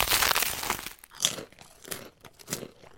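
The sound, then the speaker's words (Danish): Crisp crunching of a bread crust: a long dense crackle at first, then a few separate brittle crunches with short pauses between them, all bright and noisy, with no voices. “Det er lyden af en brødskorpe.”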